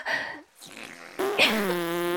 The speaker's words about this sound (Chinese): 臭死了，臭死了！你们为什么要对着我们放屁呀？